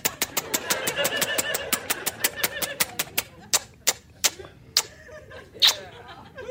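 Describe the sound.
A prize wheel is spun, its pointer ticking in many sharp clicks that start rapid and evenly spaced, then slow and spread out as the wheel winds down.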